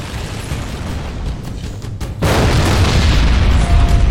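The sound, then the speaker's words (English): Explosions in a video game: a sudden, loud booming burst about midway through that becomes a sustained, roaring rumble, over steady, noisy game sound that runs throughout. “Oh no. Explosions. Wow.”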